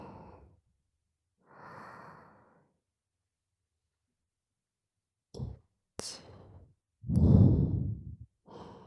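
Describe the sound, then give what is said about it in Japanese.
Deep breaths in and out during a guided breathing exercise: a few soft, airy breaths separated by pauses, then a louder, longer exhale, with no talking. “もう一回だけ吸って、”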